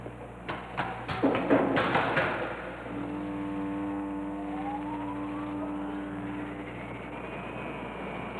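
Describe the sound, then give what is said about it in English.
A generator starts up to power a magnetic levitation machine that holds up a hollow steel ball: a few clunks and clatter, then a steady droning hum with a whine that climbs in pitch. “You can start up the generator now.”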